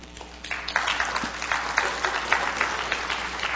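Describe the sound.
Applause from an audience welcoming a guest speaker at a morning gathering, a steady wash of moderate clapping that holds for the whole stretch.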